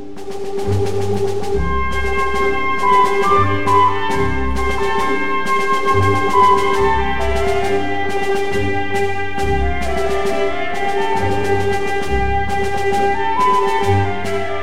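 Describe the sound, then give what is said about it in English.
A muted trumpet carries the Boléro melody while a flute plays alongside it over a steady orchestral accompaniment. The music is continuous, with a rhythmic pulse running underneath throughout. “So this is the muted trumpet with that little glowing flute accompanying him on this this continuation of our bolero melody.”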